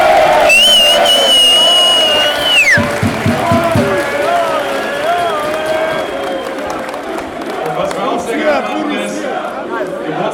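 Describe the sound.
Cheering and chatter from a sold-out crowd of 2,400 Gladbach fans at a live show, a loud continuous roar of voices with a voice speaking over it.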